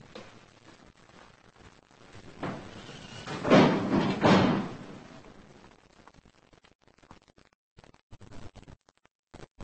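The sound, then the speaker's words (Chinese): A door is closed with a muffled thump-like burst near the middle, standing out from low, steady background noise. “把门关上。”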